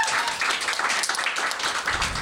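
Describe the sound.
An audience at a literary event applauds to thank the accessibility consultant. The clapping is full and continuous with a crackly texture, and it holds at a fairly even level from start to finish.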